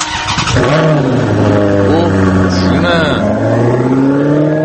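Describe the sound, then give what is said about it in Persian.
A car engine starts and accelerates hard, its loud droning revs climbing in pitch, easing off and climbing again a couple of times as it pulls away. “دقیقا با همین سرعت که شنیدید این ماشین رفت، یعنی پاشو گذاشته بود رو گاز داشت میرفت”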